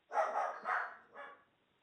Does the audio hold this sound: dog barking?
yes